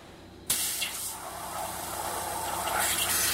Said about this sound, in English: That's the sound of water mixed with tiny jewels, powdered garnet, actually. The water is being forced through a hole the thickness of a human hair. It hits a sheet of metal with the speed of a bullet.